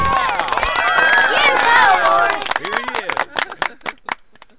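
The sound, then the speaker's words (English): An audience cheers, whoops and applauds to welcome a talk show host. A loud burst of overlapping voices and clapping fades into thinning, scattered claps. “Give a rockin' warm welcome to your host, Lawrence J. King.”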